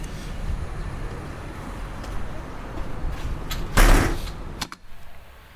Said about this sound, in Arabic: ممكن اقفل الباب بقى ساعتها ولا مش فاهم؟